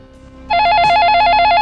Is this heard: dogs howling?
no